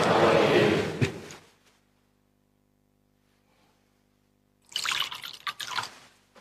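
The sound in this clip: Water being poured into the wine chalice during Mass, two short bursts of trickling liquid separated by several seconds of near silence.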